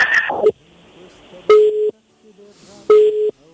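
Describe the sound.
Call-waiting tone cutting into a telephone link: two steady, mid-pitched electronic beeps, each about half a second long and evenly spaced, follow a brief burst of sound at the start, with faint line hiss between them.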